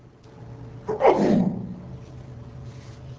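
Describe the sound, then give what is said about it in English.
A single sharp sneeze bursts out over a low, quiet hum and fades away within about half a second. “bless you”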